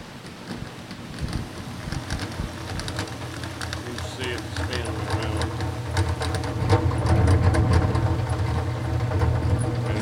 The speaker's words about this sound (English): Sling that honey out. And we'll use this thermal oven to get separated.